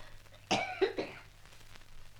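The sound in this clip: A short cluster of faint, rough coughs in quick succession, followed by quieter breathing over a low steady hum.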